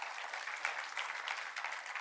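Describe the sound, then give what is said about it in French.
Audience applause for people who travelled far to attend, a brief, fairly faint patter of many clapping hands with a steady, even texture. “Alors, est-ce qu'on pourrait les applaudir? Ceux qui font beaucoup de route pour venir ici.”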